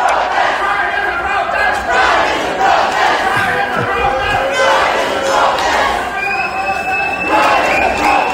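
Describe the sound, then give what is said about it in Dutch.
Crowd at a small street pride march on the seafront promenade in Ostend: a loud, continuous mass of chanting and shouting voices that swells and dips in waves and never drops away. “in Oostende zijn jullie na de voorstelling ook op straat gegaan, een soort mini-pride. Dat was een primeur voor Oostende, dat klonk ongeveer zo.”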